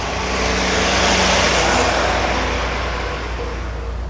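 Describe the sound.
Steady engine and road roar from a 1957 Armstrong Siddeley Sapphire 346 car with a 3400 cc engine. The broad, even drone swells slightly early on, then holds at a constant level without pauses.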